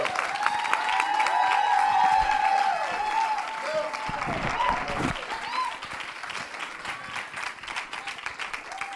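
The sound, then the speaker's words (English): Audience applause and cheering welcome a preacher at a church service, a dense, loud wash of clapping with a voice speaking over it. The clapping thins and softens somewhat toward the end. “But I want you today to put your hands together, and would you welcome the man that the Father has sent today to bring you and me a word as I follow Christ.”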